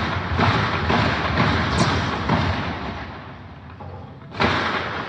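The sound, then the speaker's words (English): Gunshots during an armed attack on a police station: a few sharp reports over a rough noisy background, with a loud, abrupt crack near the end. “One bullet was pretty close. Did you hear that?”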